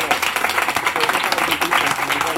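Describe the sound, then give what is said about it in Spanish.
Applause from an audience at a live comic convention show, dense and steady clapping with crowd voices mixed in throughout, fairly loud and unbroken. “Pues pollas para todos. Un aplauso para las pollas.”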